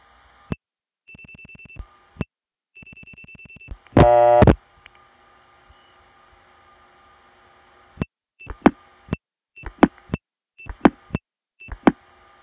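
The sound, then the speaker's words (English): A Stromberg-Carlson type telephone ring on a PBX, reached through a crossbar 5 tandem, with two steady buzzy tone bursts, then a loud brief burst, and later a run of many sharp clicks. “In this particular case, the call ends up on a PBX that has a Stromberg-Carlson type ring.”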